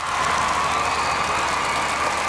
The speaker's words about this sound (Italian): L'applauso di Piazza San Carlo per l'arrivo di Roberto Bolle dà il via al Ballo in Bianco.